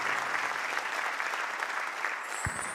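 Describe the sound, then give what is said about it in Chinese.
Audience applause, a continuous patter of many hands clapping at a moderate, fairly even level, with a single low thump near the end. “掌声都有收到哦”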